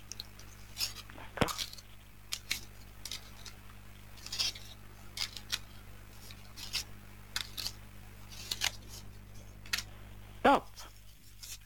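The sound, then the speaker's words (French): Playing cards are laid down one after another on a table during a card trick, a few faint, soft taps and flicks at irregular intervals over a low steady hum. “Alors, je dépose les cartes.”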